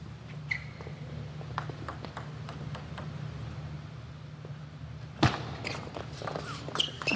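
Table tennis ball strikes during a competitive rally, including a ball clipping the net: faint, sharp clicks spaced out over a quiet hum, with one louder knock followed by a flurry of quicker taps near the end.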